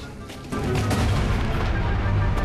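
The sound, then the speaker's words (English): Artillery fire bombarding a town: a loud, continuous rumble of booms with sharper blasts cutting through. The barrage grows heavier after the first half-second and carries on without a break. “Meanwhile, Royston Vasey continues to be bombarded.”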